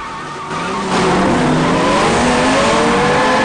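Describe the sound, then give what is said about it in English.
Race cars accelerating hard off the start of a street race, the engine roar jumping louder after a moment and climbing in pitch, with squealing tyres riding over the sustained, loud noise. “The racers accelerate. Dom takes the lead and glances over his shoulder at his rivals.”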